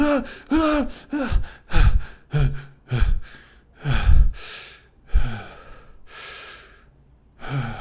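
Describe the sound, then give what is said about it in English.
Deep breathing, drawn in and let out over and over, with some breaths voiced as sighs or gasps. The breaths come as many separate swells in a steady rhythm, clear and fairly loud, with no talk. “This is how important it is to learn how to take deep breaths and master self-regulation.”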